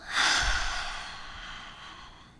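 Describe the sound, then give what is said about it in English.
A slow exhale during a breathing exercise: one long, breathy rush of air that starts strong and tapers off gradually over about two seconds. “and on the exhale, just let it all go. Ready? Let's inhale. And let it go.”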